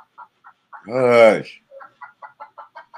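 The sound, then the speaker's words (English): Chickens kept inside a house cluck in short, soft, repeated notes, with one louder, drawn-out squawk breaking in early on before the quick clucking resumes. “What the fuck is that? Bro, we got 20 chickens. You think they just always outside? You got chickens in your house? Yes.”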